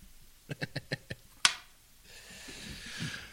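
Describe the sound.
A camera photographs a person in sunlight, making a run of five soft clicks and then a single sharp shutter snap. Faint talk follows afterward.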